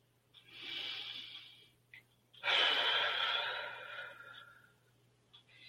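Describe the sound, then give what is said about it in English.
A deep breath drawn in and then released during a guided relaxation exercise: two soft, airy breath sounds, the second louder and longer, over a faint steady low hum. “Take a second deep breath and exhale.”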